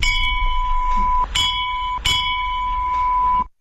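A puja bell is rung loudly during worship, giving a bright, sustained metallic ringing. Repeated sharp strikes renew the tone, which cuts off abruptly near the end.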